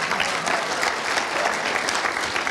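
Audience applause for the True North Church 2017 State Youth Games champions: dense, steady clapping that holds at an even loudness through the whole short stretch, with no pauses or breaks.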